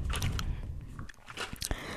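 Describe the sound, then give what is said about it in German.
Chewing gum being chewed, with several moist, crunchy bites and smacks in an uneven rhythm, fairly loud and close, with no talk. “das Kaugummi, was ich gerade kaue”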